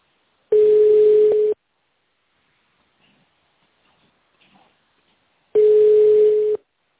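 A telephone ringback tone plays while a caller waits for an operator at a security company's switchboard: two steady, mid-pitched tones of about one second each, with near-silence between them holding only a few faint small noises.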